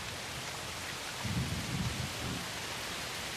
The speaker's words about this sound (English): He leaves the workshop and walks out into the night air where it's raining heavily.